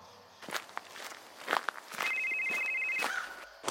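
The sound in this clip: Mobile phone ringing with an incoming call at a Manila cemetery: a thin electronic trill lasting about a second, coming after a few soft footsteps.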